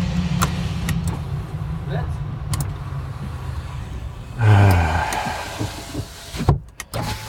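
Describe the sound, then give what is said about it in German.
A car's power window whirs steadily as it closes, ending in a short louder thump, with traffic and engine hum around it. “Die Fensterscheibe wieder hoch.”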